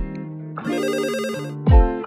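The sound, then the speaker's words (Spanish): A telephone ringtone signals an incoming call: a bright electronic tone rings out in a sustained, melodic pattern and ends with a louder, swooping burst, with no voices. “Tenemos una llamada entrante de un oyente que quiere hacer una pregunta.”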